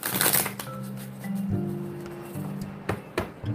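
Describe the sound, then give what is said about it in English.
A tarot card being drawn from a deck, heard as a few short papery flicks and slaps over soft, sustained background music. “Let's pull a card.”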